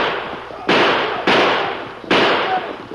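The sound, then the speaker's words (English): Gunshots in a fight at a cave: three loud, sharp bangs, evenly spaced, each with a sudden onset and a long fading tail. “Shoot him now, Red Fox! Kill him!”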